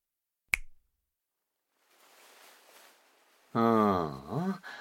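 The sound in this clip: A single sharp finger snap cracks out of silence. After a pause comes a faint breathy hiss, and then a voice speaks.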